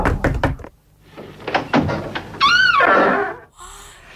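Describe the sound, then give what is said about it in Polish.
An old door creaks open after a few rounds of dull knocking. A drawn-out, wavering creak follows, then trails off. “Stare, skrzypiące drzwi otwierają się”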